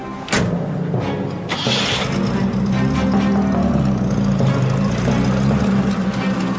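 A car engine runs as a police car pulls away carrying a detained woman and a detective. The low, steady drone holds fairly loud throughout, with a faint click near the start.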